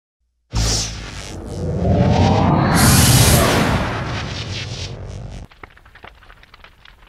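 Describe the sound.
A Star Trek starship engaging its warp drive: a sudden loud onset swells into a sustained roaring whoosh with a rising sweep, then cuts off abruptly, leaving a faint crackle.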